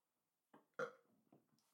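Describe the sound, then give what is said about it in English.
A short, quiet burp: a croaky burst with a few softer guttural pulses trailing after it, on its own with no talk. “Ooh. That is a burp.”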